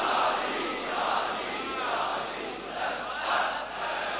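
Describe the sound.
A crowd shouts back in unison in response to the religious chant Nara-e-Haidri. The loud collective calls swell and recede in a few waves.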